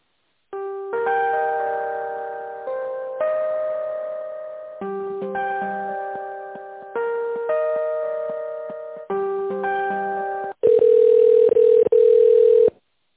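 A telephone ringing tone plays while a call is transferred to a supply department. It is a repeating pattern of melodic electronic chime phrases, then a louder, buzzier steady tone to the end, with no voices.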